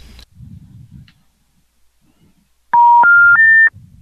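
Three touch-tone dialing beeps of a telephone number sound in quick succession, each a step higher in pitch and loud, after a few faint low murmurs and near-silence.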